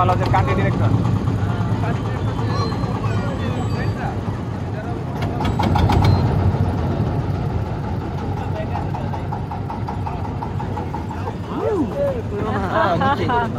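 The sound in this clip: A boat engine hums at a steady mid-pitched rumble as the boat slows and runs aground on a raised sandy riverbed in shallow water in Bangladesh. Voices talk over the continuous engine noise.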